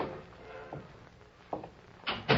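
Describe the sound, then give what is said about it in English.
A door being opened in an office: a few soft clicks and knocks of the latch and handle, ending in two louder thuds over faint background hiss. “alone in the office when Baker of the Secret Service opened the door”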